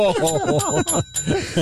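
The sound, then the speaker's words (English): A bell dings, and its bright, ringing tone lingers faintly under continuous talk. “Ding the bell.”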